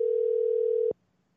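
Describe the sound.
A telephone dial tone sounds as a call is being placed: one steady, low-pitched hum lasting about a second that cuts off abruptly into near silence.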